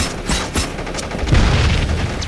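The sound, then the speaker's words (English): A grenade explodes in a combat scene: a couple of sharp cracks, then a heavy, low rumbling blast that lingers loudly to the end. “Frag, cook it. 3 seconds or four? Don't cook the grenade. One, two, three.”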